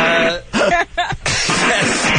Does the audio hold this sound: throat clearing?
yes